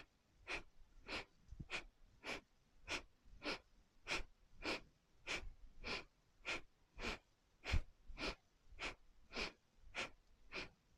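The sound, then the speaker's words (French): Rapid rhythmic breathing from a person doing a seated torso-rotation exercise, inhaling and exhaling quickly in time. A long, steady series of sharp, breathy pulses at an even pace, with no talking. “Un peu plus vite, inspire, expire, inspire, expire.”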